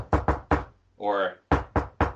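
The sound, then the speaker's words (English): Knocking on a door: three sharp, loud knocks, a short voiced sound, then three more knocks at the same brisk pace. “for things like how you're knocking on the door”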